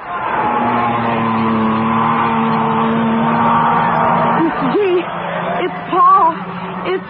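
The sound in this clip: Race cars on a track: a loud, sustained engine drone whose pitch shifts as the cars run, with a voice briefly heard over the engines near the end.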